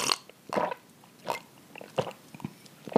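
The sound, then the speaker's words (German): Gulps of pulp-free orange juice, several distinct swallowing sounds spaced about half a second apart, each a short wet burst with quiet pauses between. “trinke ich einen wundervollen Orangensaft ohne Stückchen. Einfach weil ich da jetzt richtig, richtig Bock drauf habe. Holt euch ein Getränk, wir trinken jetzt beide, okay?”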